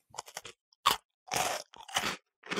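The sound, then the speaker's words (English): Biting and chewing an Oreo cookie flattened around a marshmallow: a few quick, faint clicks, then several loud, crisp crunching bursts separated by short pauses, with no talk. “let's try to make an Oreo better. And so now we're going to put a marshmallow in it, flatten it out. Now let's see how this tastes.”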